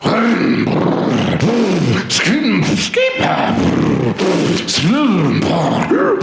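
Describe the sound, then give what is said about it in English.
A voice imitates a go-kart engine warming up, making repeated loud, growling revs that swoop up and down in pitch between grunting bursts, with brief pauses. “we're all warming up. I'm warming up my go-kart.”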